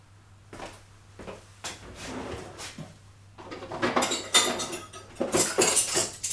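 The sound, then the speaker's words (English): Forks, spoons, knives and plates are laid out on a table: a few quiet separate clinks at first, then denser, louder clattering of cutlery and dishes in the second half. “Okay, so that's forks, spoons, knives, plates. Put the salad in the middle.”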